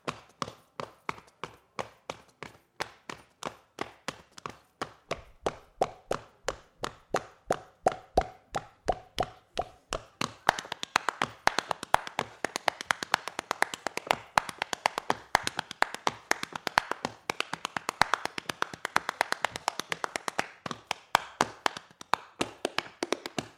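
Hands slap the stomach like a bass drum in body percussion: many dull, thumping slaps in a steady rhythm, growing faster and denser partway through, with no talking.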